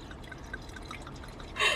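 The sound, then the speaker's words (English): Wine being poured from a freshly opened bottle in a parked car: a steady trickling, dripping stream of liquid with a brief, louder burst near the end. “Popping some wine, ooh, just like our moms taught us.”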